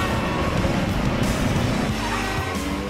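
A car speeds away at breakneck pace through city streets, its engine roaring loudly and steadily with constant road noise throughout.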